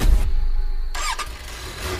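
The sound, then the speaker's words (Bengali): A car engine starting as the key is turned, in a car that usually fails to start: a short whirring crank gives way to a louder burst as the motor catches, with no voices. “কাঁপা হাতে গাড়ির চাবি ঘোরাতেই আরও আশ্চর্য হলো চন্দন। যে গাড়ি 5 চালু হয় না, সেই গাড়ি 1 চালু হয়ে গেল যে।”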